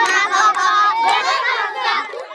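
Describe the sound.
Children singing together at a site for displaced people, a bright chorus of high young voices that carries loudly and continuously with lively shifting pitch.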